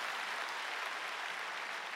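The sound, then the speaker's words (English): Congregation clapping hands during a church sermon: a dense, steady wash of many hands applauding at an even, loud level throughout, with no clear voices over it. “Come on and clap your hands.”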